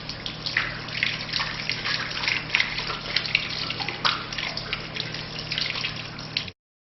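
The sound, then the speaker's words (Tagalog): Water runs from a tap while both hands are washed up to the wrists, a steady, fairly loud rushing splash that continues unbroken and then stops abruptly. “Hugasan ang dalawang kamay hanggang pulso ng 3 beses. Unahin ang kanan bago ang kaliwa.”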